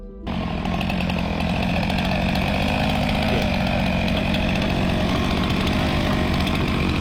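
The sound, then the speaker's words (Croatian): A motorized saw cuts through ice at an Antarctic research station to make a swimming pool. Its loud, steady engine drone starts abruptly after a brief moment and holds at full, unvarying intensity with a buzzing, rattling tone. “Ipak, članovi ekspedicije u istraživačkoj stanici Casey koristili su pile i bager kako bi sebi napravili svojevrsni bazen za plivanje.”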